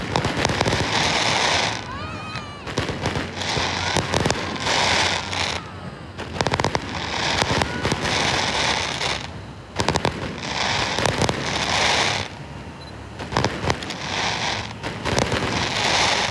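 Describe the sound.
Fireworks burst over the sea at Haitang Bay to farewell 2022, a dense, continuous barrage of loud crackling booms and pops with people talking beneath.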